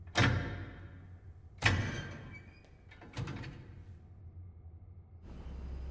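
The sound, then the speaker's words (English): A door is pushed further open. Three dull thunks land roughly one and a half seconds apart, followed by a low steady rustle. “She reaches out and opens the door further.”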